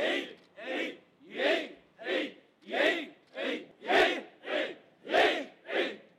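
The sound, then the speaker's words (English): Parishioners at a Tokyo Shinto shrine shout in unison before a new-year ice-bath purification, giving about ten loud, evenly spaced cries in a steady rhythm with short pauses between them. “That's the sound of parishioners at a shrine in Tokyo preparing to step into an ice bath to purify their souls and pray for the new year.”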